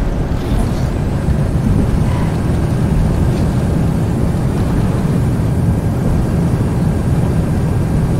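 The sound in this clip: A steady, loud roar from an airliner landing and braking in a flight simulator video game, a dense low rumble with wind-like hiss that holds constant throughout, with no distinct separate events.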